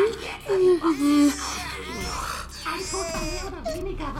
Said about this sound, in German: Na los, kleines süßes Alien-Baby, schlaf weiter, bitte.